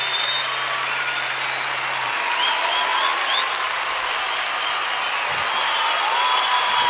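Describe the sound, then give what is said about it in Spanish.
Audience applause at an award presentation, a continuous, dense roar of clapping that holds a strong, even level for about seven seconds with no pause. “Fuerte el aplauso.”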